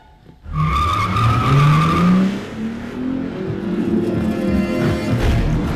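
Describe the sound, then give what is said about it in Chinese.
Tires screech as a car pulls away hard, a loud continuous squeal over a rising engine note that carries on to the end. “简妮开车离开了家，还把拿枪拦截她的乔尼撞到了路边。”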